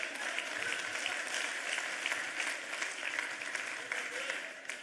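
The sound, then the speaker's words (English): An audience claps during a church sermon. The clapping is a dense, steady wash of many hands that holds at an even loudness for the whole stretch and eases off slightly at the very end. “everyone who just clapped, you see how much you have to change.”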